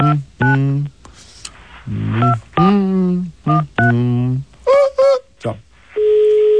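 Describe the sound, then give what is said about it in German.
Telephone dialing to place a call: a run of short electronic tones of shifting pitch with brief gaps between them, ending in a steady, sustained tone. “Da werden wir jetzt gleich mal anrufen.”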